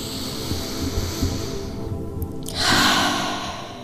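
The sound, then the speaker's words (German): A single deep breath drawn in during a guided breathing exercise: a soft, airy rush that swells toward the end over a low, steady background hum. “Atme es tief, tief ein.”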